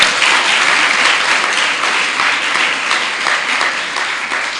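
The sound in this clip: An audience at a Gujarati devotional discourse breaks into applause, a steady, crisp clapping from many hands that holds fairly even and thins slightly toward the end.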